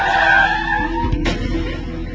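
A car brakes hard with its tires skidding, producing a continuous, loud, rough screech that fills the whole short clip with little change apart from a brief shift partway through.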